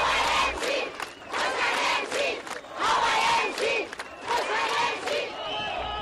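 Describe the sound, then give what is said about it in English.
Protesters rally in Cairo's streets, supporters and opponents of President Mohamed Morsi alike. The large crowd chants and shouts in loud, rhythmic waves that rise and fall repeatedly. “In Egypt today, both supporters of President Mohamed Morsi and those calling for his ouster rallied in Cairo's streets as a military-imposed deadline to resolve the standoff nears.”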